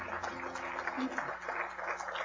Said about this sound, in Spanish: Aplausos a nuestro Dios, mis hermanos.